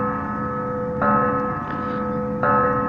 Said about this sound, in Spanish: Ya están esos pendejos tocando la campana. Estoy aquí cerca de un templo.